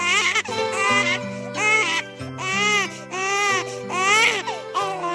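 A newborn baby crying in a run of about five high, wavering wails with short gasping breaks between them, set over soft, steady background music.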